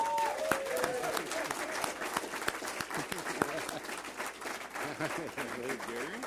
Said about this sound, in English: but please, no shouting, clapping, whistling, that kind of thing during the debate. We're going to give you a chance to do that right now, so please welcome to the podiums Lee Terry and Jim Esch.